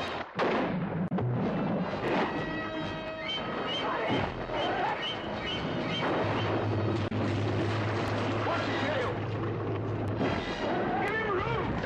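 Gunfire during a shark-hunt scene on a boat: heavy, booming shots within a dense, loud, continuous mix of other sounds.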